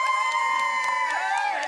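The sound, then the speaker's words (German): A crowd waving flags at Oslo airport cheers and whoops for Norwegian Olympic athletes coming home. Sustained shouts and cheers hold at a high, steady level throughout. “Und die ersten heimkehrenden Athleten feiern die Norweger am Flughafen in Oslo mit einem Flaggenmeer und Jubelschreien”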